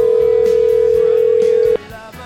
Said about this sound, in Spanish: ir ya preparando la línea de teléfono y haciendo esa llamadita